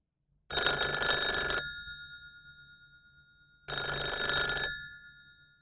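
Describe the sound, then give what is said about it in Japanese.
A telephone rings in the evening with two bright, electronic ring bursts, each about a second long with a fading tail, separated by a few seconds of silence, and no voices. “夜8時ごろに電話がありました。”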